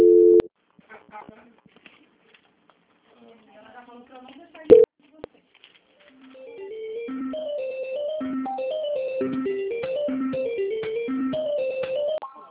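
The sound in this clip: Telephone line sounds during a call transfer to a quality-control department: a brief steady tone opens, then quiet with a couple of clicks, then a simple electronic melody of stepping notes plays steadily to the end.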